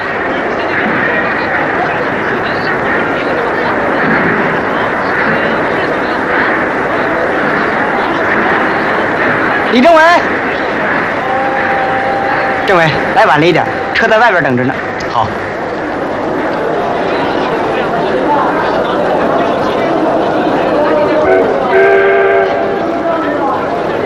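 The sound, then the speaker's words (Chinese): A train arriving from Andong pulls into a station with a steady, loud rumble. Brief horn-like tones sound partway through and again near the end, and voices are heard over it. “车站同志，安东来的车进站了。”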